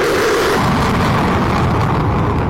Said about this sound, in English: The U.S. has launched more airstrikes against Iran for a 10th consecutive day. Video of some of those airstrikes has been made public.